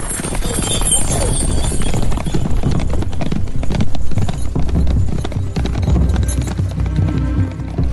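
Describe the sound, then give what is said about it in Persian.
Hooves of horses ridden by several mounted men clip-clop loudly and steadily at a gallop in rural Ethiopia, forming a dense, continuous drumming that carries through the whole clip. “ناگهان چند مرد اسب سوار او رو محاصره میکنند.”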